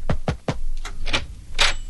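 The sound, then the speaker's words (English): Knocking on a door: three quick, sharp raps in a row, followed by softer scattered clatter and rustling. “Somebody knocked. Yes, I knocked”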